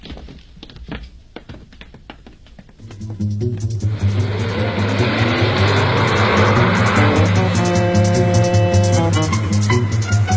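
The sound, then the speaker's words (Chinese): A car carrying detained gamblers away drives off. A few light knocks and thuds come first, then a low engine rumble swells and holds steady, with a whining engine tone joining near the end. “老黄把803和吴新龙他们一起押上汽车带了回去。”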